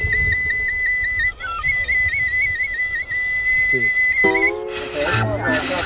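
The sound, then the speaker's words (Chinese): A person whistles a high, steady tone with small repeated warbles, lasting about four seconds before giving way to a burst of noisier, broader sound. “你们会不会吹口哨？ 不会。 会吗？ 不会。 吹口哨， 你先吹口哨，然后侧着你慢慢移位。”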